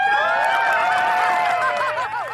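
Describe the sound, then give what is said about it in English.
An audience cheers at the end of a show with loud, sustained crowd noise. High whoops and whistle-like shouts rise and fall over it. “All right, let's end it like any good show should be ended, with a round of applause and random cheering.”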